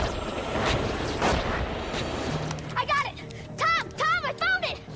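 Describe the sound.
Category 3 pyrotechnic fireworks go off as a few loud booming blasts with rumbling crackle. Excited voices then call out over the fading noise.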